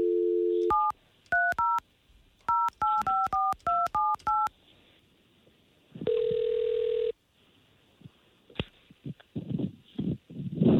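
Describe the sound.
Telephone dialing during a call: a steady dial tone, then a rapid series of dual-pitch keypad tones, then a longer ringback tone, followed by voices and rustling as the call connects.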